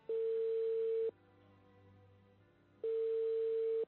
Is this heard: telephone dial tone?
yes

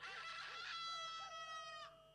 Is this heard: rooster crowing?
yes

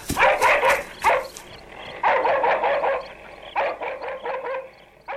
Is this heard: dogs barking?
yes

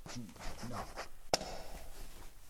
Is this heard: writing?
yes

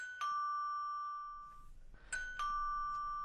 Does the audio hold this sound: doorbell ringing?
yes

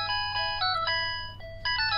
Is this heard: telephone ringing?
yes

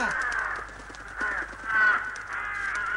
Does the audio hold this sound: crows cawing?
yes

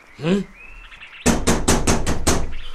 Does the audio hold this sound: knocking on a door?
yes

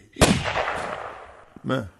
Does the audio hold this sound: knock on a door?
no

